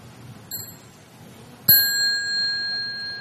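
A meditation bell at a Buddhist day of mindfulness gets a light first touch, then a full strike. The strike rings on as a clear, bright, sustained tone that slowly fades.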